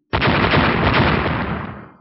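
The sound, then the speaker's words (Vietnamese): Fiery blasts explode in a sudden burst: a sharp onset gives way to a dense, steady roar that holds for nearly two seconds before tapering off, with no voices. “Những ngọn lửa này lập tức vỡ ra, vô số sinh vật tử linh bị vụ nổ mạnh này ảnh hưởng trực tiếp biến mất.”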